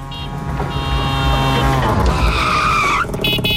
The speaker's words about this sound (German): ist unser Tuk-Tuk und das wird auch heute Nachmittag nochmal hier durchs Programm fahren